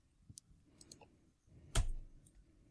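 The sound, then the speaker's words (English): A computer mouse clicking: a few faint ticks, then one sharp, louder click stands out against a very quiet background. “I want to make sure I'm clicking the right thing.”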